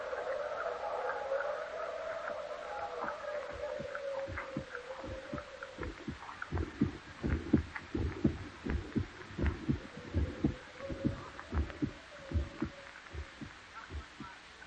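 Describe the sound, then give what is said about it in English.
A heartbeat sound effect from a radio drama of Poe's The Tell-Tale Heart: many deep, steady thumping pulses that grow stronger and more prominent after the first few seconds, over a low sustained drone. “all the while in his rotting brain beats the hideous rhythm of that long-stilled heart.”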